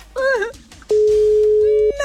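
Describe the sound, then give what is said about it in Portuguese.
A telephone ringback tone on an outgoing call: one steady mid-pitched tone lasting about a second, preceded by a brief voice-like sound. “Quinto toque.”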